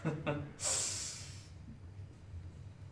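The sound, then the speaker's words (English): A voice imitates a distorted, muffled exhalation of laughter from a creature in a tabletop role-playing game: two short breathy bursts, then a longer hissing, snort-like exhale that slowly fades. “In response, you hear this sort of distorted and muffled, like, exhalation of laughter. It's like a...”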